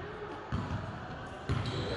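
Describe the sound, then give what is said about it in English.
A basketball is dribbled down the court during a game, two dull thumps about a second apart over faint voices and gym noise. “12, dribbling the ball down.”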